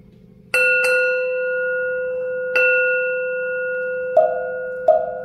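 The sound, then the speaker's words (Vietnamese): Temple bell strikes during Vietnamese Buddhist sutra chanting: a few clear metallic strikes, each leaving a long, sustained ringing tone that decays slowly over a low, steady background. “Chuông với mõ âm vang lời khai thị”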